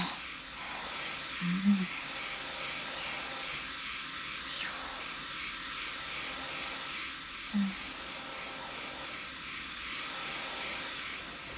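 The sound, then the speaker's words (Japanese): Hair dryer blowing while the sides of someone's hair are pressed down and dried, a continuous even airy whoosh that runs throughout, fairly faint, with no talk. “サイドは跳ねないように上から押さえるようにドライヤーして、”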